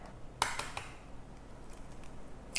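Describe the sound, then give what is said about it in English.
Eggs being cracked into a separate bowl while making an olive oil cake in a kitchen: a few faint, sharp taps and clicks of shell against the bowl, spaced apart, with no talking. “First of all, we're gonna crack 3 eggs into a separate bowl.”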